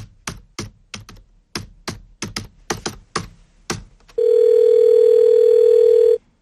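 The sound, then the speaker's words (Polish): Dialing an international call to Washington on a telephone keypad: a rapid run of sharp key presses, then a loud, steady continuous tone that holds for about two seconds. “A właśnie, a propos komunikacji, łączenie z Waszyngtonem. Uwaga, międzynarodowa będzie. Ja tutaj już wystukuję numer.”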